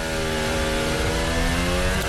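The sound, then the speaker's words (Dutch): A Formula One car engine is heard onboard during first free practice at the Barcelona Grand Prix, on soft tyres. It gives a loud, steady, high-revving drone with dense harmonics throughout. “Hier aan boord bij George Russell. De snelste van de eerste training tot dusver.”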